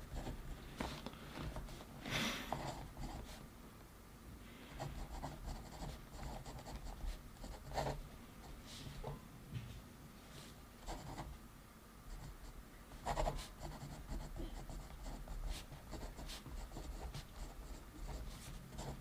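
A pen scratching on paper as someone writes down a list of goals: faint, continuous scribbling strokes with short pauses between bursts of writing.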